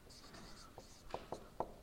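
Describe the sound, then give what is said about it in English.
Pen writing math notes on paper, faint scratchy strokes broken by a few sharper taps, quiet and alone. “It looks like I'm getting ready to write a whole lot of math. I'm just going to write not that much math”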